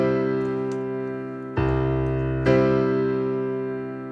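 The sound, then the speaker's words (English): A C major chord rings out on a piano and is struck twice more at steady intervals. Each strike blooms into a full, sustained sound that slowly fades before the next one. “I'm sat at the piano, and so we're playing in the key of C major. This is a C major chord.”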